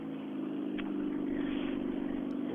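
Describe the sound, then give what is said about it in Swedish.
The engine of an old Mazda rally car at a rally event gives a steady, even mid-pitched drone with a constant rough hum and no clear revving. “En Mazda. Det tillhör inte de moderna bilarna utan det måste nog vara rallyts äldsta bil nästan.”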